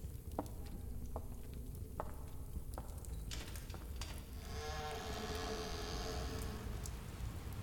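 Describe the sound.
Steady rain falls in a dense, continuous patter, with a few sharper drops standing out early on and the hiss thickening in the second half; no voices.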